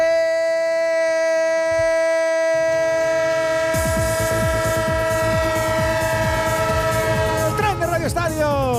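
A train horn sounds a long, steady, loud chord. After a few seconds, rolling, clattering rumble from the rail wagons joins it, and the tones waver near the end.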